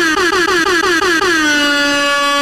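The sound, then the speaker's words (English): Air horn sound effect blaring a rapid string of short, loud brassy blasts, then one long sustained blast that rings on alone. “Let air horns for that, too, man.”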